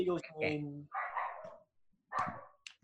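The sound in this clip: Dogs bark and yip in a few short, fairly faint bursts, mixed with thin whining tones and separated by brief pauses.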